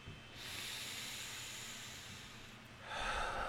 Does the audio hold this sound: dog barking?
no